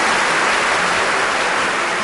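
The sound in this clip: Audience applause on a Chinese television talent stage, a dense, steady wash of clapping that stays loud and even throughout, with no voices over it.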